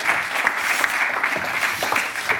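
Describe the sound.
Steady applause from a live audience at the Commonwealth Club in San Francisco welcoming two speakers: a dense, continuous patter of many clapping hands, loud and unbroken from start to finish.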